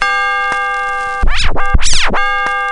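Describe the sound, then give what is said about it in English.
A chime signalling the reader to turn the page in a read-along storybook: bright, sustained bell-like tones ring steadily, broken midway by a short flurry of swirling, sweeping chime notes before the steady ringing resumes. “Every time you hear this chime,”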